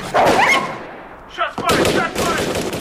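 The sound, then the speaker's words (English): Gunfire breaks out during a tense armed confrontation in which law enforcement agents try to get people onto the ground. Several sharp, loud bursts of shots mix with shouting voices in a short, chaotic burst of noise. “Shots fired. Everyone is shooting.”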